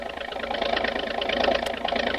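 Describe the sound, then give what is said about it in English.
A speedy motorboat's engine roars as it hurls through the water, a loud, steady, rough drone that holds at full strength from start to end without a clear start-up. “starts up with a roar, and the speedy motorboat hurls through the water into the midst of the war canoes.”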